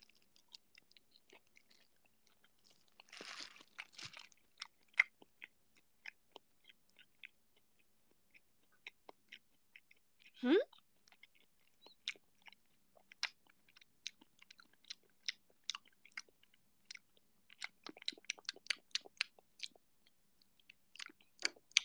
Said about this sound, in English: I got a pretty good dip in there. I will now proceed to take a bite.